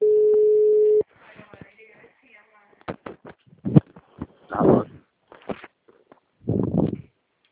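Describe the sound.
A telephone call ringing out: one steady, fairly loud ringback tone lasting about a second, then quieter irregular clicks, rustling and muffled voices.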